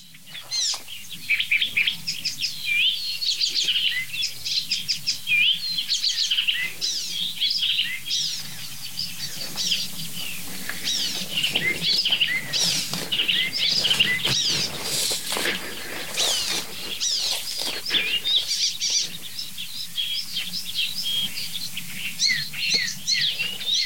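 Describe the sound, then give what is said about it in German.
Icterine warbler singing a continuous, fast, varied song made mostly of mimicked phrases, with many high chirps, whistles and chattering notes and no pauses. “Der Gesang des Gelbspötters besteht fast ausschließlich aus Imitation.”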